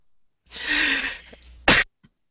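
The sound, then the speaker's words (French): A person coughs once, a sharp, loud burst that follows a quieter, drawn-out throaty sound, with no talking. “Excusez-moi, je suis en train de tousser.”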